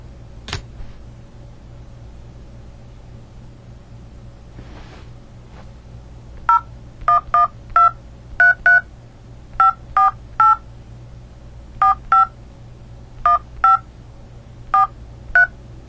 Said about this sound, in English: Please enter the telephone number you wish to dial now, or press *0 to recharge